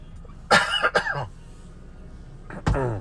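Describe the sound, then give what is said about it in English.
A person coughs in two short bursts separated by a pause: a cluster of harsh coughs first, then a final cough, each fairly loud against a quiet background. “excuse me while I cough”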